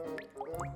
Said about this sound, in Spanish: Ese es el sonido de una gota cayendo en varios envases que te regaló tu tía en Navidad.